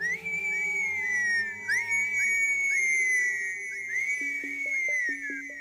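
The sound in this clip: A person whistles one long, clear, high whistle that glides gently up and down and holds for several seconds, with low steady tones sustained underneath.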